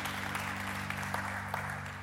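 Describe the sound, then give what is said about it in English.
Church audience clapping after a closing prayer, a steady, dense patter of many hands over a sustained low keyboard chord. “Go ahead, you can clap.”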